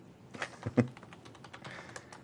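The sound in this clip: Typing on a computer keyboard while entering a name: many quick, irregular key clicks, fairly faint, with a few sharper taps standing out near the start.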